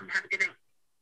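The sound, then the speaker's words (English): A voicemail message playing back on a phone: a brief, tinny burst of recorded voice in two short phrases that cuts off into silence. “Somebody was checking voicemail or something.”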